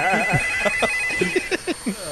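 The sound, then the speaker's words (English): Telephone ringing as a steady electronic ring tone held throughout, with a voice over it rising and falling in short bursts. “Baby, get the phone. Damn, will you pick up that phone?”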